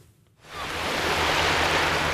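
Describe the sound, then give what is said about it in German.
Sea waves wash onto a Belgian North Sea beach at Ostend at low tide in the morning. A broad, continuous rushing hiss swells in after a brief quiet start and stays steady. “Es ist 9 Uhr morgens, Ebbe und noch wenig los am Strandabschnitt Osterstrand, rechts neben dem Ostender Hafen.”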